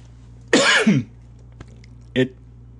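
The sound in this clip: Coughing from someone who has choked on their own saliva: a harsh, rasping burst, then after a pause a shorter second cough, set alone over a faint steady low hum.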